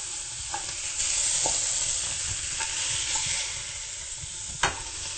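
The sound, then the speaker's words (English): Tofu sizzling in a spiced pan as it is stirred for a vegan dish: a steady, soft frying hiss with scattered scraping stir sounds and one sharp clink near the end. “And we'll go ahead and add our tofu in there.”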